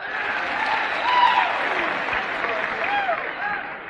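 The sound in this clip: Audience applause at the Grand Ole Opry as a female country singer is welcomed onstage: dense, steady clapping fills the whole stretch, swelling slightly midway, with some voices or cheers mixed in.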